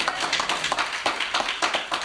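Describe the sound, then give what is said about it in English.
A church audience gives a round of hand claps to thank the day's speakers. The claps are crisp and sharp, falling in a fairly regular, brisk rhythm for the whole clip. “We thank our speakers for today. Let's get a hand clap.”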